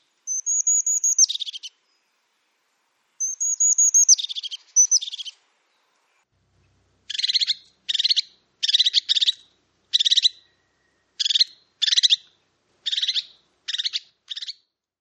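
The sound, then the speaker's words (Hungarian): Crested tit calling: two longer high, buzzy trilled phrases, then after a short pause many brief, rapid chirping bursts in an even series, clear and alone with no background noise. “Nyilván segíti, tehát amikor olyan helyen vagyunk, hogy fenyves környezetben, akkor mindig lehet számítani, de jól felismerhető a hangja a búvos cinegének.”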